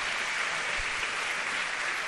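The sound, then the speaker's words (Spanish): Audience applause and ovation at the end of a live tango orchestra performance: a dense, steady wash of many hands clapping at an even level, with no separate claps standing out. “Ahora sí, un final como corresponde. Ovación de la gente.”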